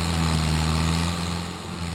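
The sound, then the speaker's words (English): A tree service's stump grinder drones as it grinds through tree roots in Savannah, a loud, continuous low engine hum with no distinct strikes. “Lundeen doesn't find anything important in these roots, so he gives the okay to the tree service to crank up the grinder.”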